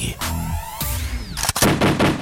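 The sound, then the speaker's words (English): Gunshot sound effects played on a hip-hop and R&B radio show: a few sharp bursts of gunfire mixed with sweeping, music-like effects. “All right, those actual shots are to my head.”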